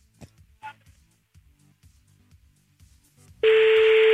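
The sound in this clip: A phone call being placed to an iPhone 4S: a few faint clicks and a short beep, then a loud, steady electronic ringing tone that fills the last second.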